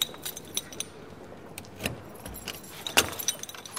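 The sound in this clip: Keys jangle as a door in a plywood wall to a vehicle prototyping workshop is unlocked, with scattered faint metallic clinks over a quiet background and a sharper clack near the end.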